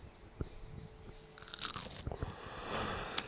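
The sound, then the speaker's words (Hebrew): Crunchy bites into crispy fried eggplant coated in cornflour and dried piece by piece before frying, giving a run of sharp, crackling crunches followed by chewing, with no talk. “טעים? תגידי שטעים. וואו. קריספי של החיים. איך זה ככה קריספי? הקורנפלור והייבוש. ייבשתי אותם יופי יופי אחד-אחד. אתם שומעים את הקראנץ'? נראה לי ששומעים את הקראנץ'.”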